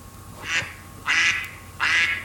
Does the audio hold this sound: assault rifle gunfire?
no

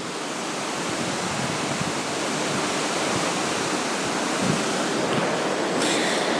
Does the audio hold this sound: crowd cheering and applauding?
no

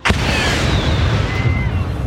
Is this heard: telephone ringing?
no

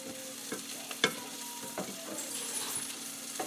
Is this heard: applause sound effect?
no

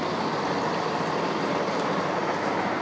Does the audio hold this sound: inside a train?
yes

